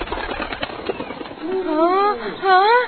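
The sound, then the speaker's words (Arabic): A small bird perched on a branch chirps in a few short, wavering tonal calls that rise and fall, heard under a narrating voice. “وبعد قليل وقف طير صغير على الغصن”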